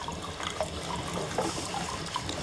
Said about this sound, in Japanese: このね、お湯が出てる音しますよね。